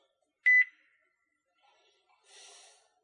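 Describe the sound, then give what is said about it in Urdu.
A phone call's disconnect tone: one short, loud, high beep, then a brief stretch of faint hiss. “دیکھیں, چوتھی کال کٹ گئی ہے, کالیں کٹ رہی ہیں.”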